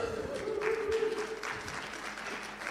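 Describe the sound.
An audience applauds and cheers, a dense, steady wash of clapping that fills the whole clip at an even level without pause.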